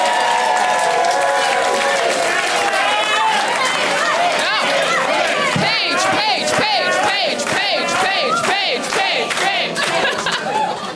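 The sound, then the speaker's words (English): Audience chanting at a live comedy show, loud rhythmic group voices rising into shouts and cheers, sustained throughout with crowd noise around it. “That might be the first chant for an audience member.”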